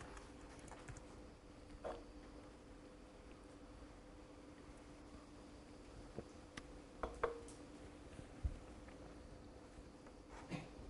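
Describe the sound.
Sparse keystrokes as a command is typed on a computer keyboard: a few faint, irregular clicks scattered over a low steady hum, bunching together briefly toward the middle before trailing off.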